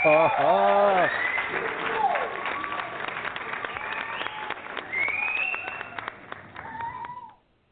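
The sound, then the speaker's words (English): A canned studio-audience applause clip of steady, crackling clapping, with cat-like meows and yowls mixed in. It runs for about seven seconds and then cuts off abruptly. “Can you at least play me a good audience clip? Oh, yeah. You want the studio audience? Yeah, we want to thank them.”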